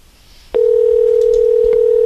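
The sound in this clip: Telephone dial tone: a click sets off a loud, steady, unbroken tone that holds evenly to the end after a faint quiet start.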